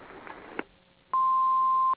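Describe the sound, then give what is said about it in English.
A single voicemail beep sounds as a clean, steady, mid-pitched electronic tone lasting just under a second, after a short quiet stretch marked by a faint click. “Leave me a message after the beep.”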